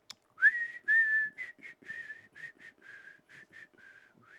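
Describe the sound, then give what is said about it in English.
A lone whistler carries a melody from an old movie. Clear, bright notes, many of them short with a few held longer, sound on their own with no talk. “Ellie Driver was whistling from an old Hitchcock movie”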